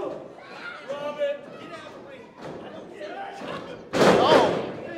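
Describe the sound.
A heavy body slam onto a wrestling ring lands as a single loud, broad thud near the end, followed by a sustained roar, with excited commentary talk running throughout.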